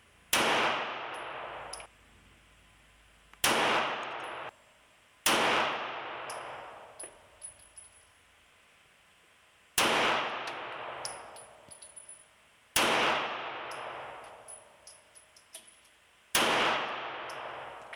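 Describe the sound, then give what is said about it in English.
Handgun shots on a shooting range, six sharp loud reports spaced irregularly, each with a long ringing decay and small clicks between shots. “So we'll crank a few rounds off here and see where we're at.”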